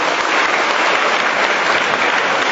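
Audience applause at a gathering: loud, dense, continuous clapping that holds steady throughout with no break.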